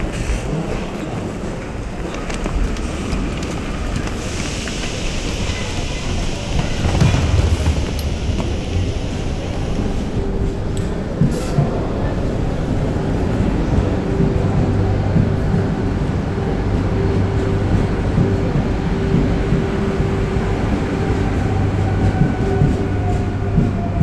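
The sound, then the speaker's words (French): A TER regional passenger train on the Lyon–Saint-Étienne line gives a steady, loud rumble and rattle on the rails that lasts the whole clip. A faint, steady whine joins partway through. “Lyon-Saint-Étienne, regardez aux vitres du train.”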